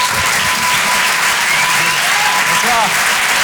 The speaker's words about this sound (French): Je vous demande de l'encourager. Faites du bruit, s'il vous plaît, pour Boris Cholin.